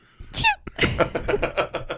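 A single sharp sneeze at a food-serving counter behind a sneeze guard, a quick forceful burst near the start, followed by a run of short rhythmic voiced sounds.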